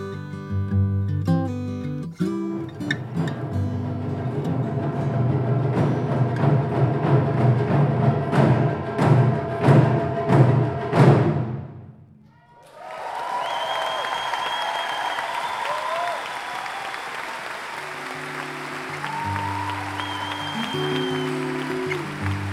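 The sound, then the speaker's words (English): Taiko drums from a Japanese drum ensemble pound out a loud, driving rhythm of heavy, booming strikes that build in intensity, then stop abruptly and give way to sustained applause and cheering from a crowd. “And that was how it all began, with the mesmerizing drums”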